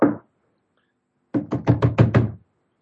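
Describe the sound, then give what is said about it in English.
Knocking on a classroom door: a single dull thump, then after a pause a quick, even series of firm knuckle raps on wood. No one speaks. “there's a knock on the classroom door.”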